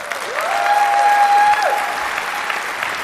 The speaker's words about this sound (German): Einen großen Applaus dafür.